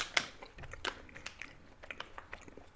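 Someone bites into a sugar-coated treat filled with white coconut, a sharp crunch at the start, then a second bite, followed by quieter scattered chewing clicks, all faint.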